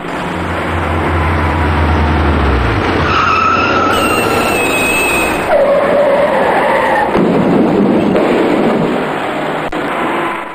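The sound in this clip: A heavy truck skids out of control on a rain-slicked, mirror-smooth downhill stretch of road: a loud, continuous roaring hiss with screeching tire tones that holds steady for about ten seconds.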